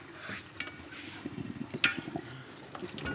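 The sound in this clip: A spoon stirs sauce for pasta in a pan, giving a soft, scraping swish with light sizzling and a few small clinks of the utensil against the pan. No one speaks.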